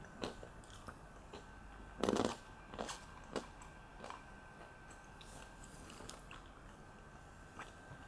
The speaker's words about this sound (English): I'm just chewing almonds.